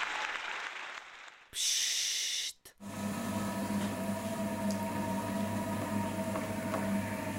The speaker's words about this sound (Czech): Nejste si jistí, jaký zvuk jste právě slyšeli? Je to zvuk vytrvalosti a nezměrné trpělivosti. Zvuk hrnčířského kruhu.